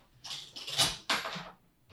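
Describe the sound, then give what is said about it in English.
A sticking office door grinds and scrapes open in two loud, rough bursts, then gives one brief, fainter scrape. “Our office door sticks, so it's going to be really loud when I open it, so... If you're wondering what that noise is.”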